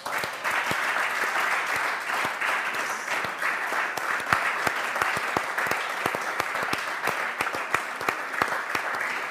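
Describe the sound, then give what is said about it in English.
Congregation applauding in a church service, many sharp individual claps popping out of a dense, steady wash of clapping for about nine seconds, with no talk over it. “Can you clap?”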